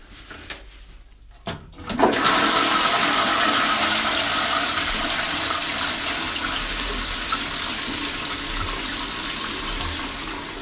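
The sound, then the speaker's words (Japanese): A toilet being flushed: after a quiet start, a sudden loud rushing gush of water sets in and holds steady, easing only slightly toward the end. “いっぱい出せました。それじゃ流します。”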